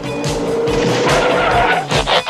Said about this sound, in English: Slow down! I can hardly see! Look out, a car!